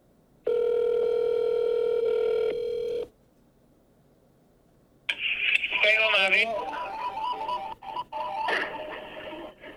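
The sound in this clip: A telephone call to a Chinese restaurant: a steady electronic ringing tone holds for about two and a half seconds, followed by a pause, then a voice answering on the line.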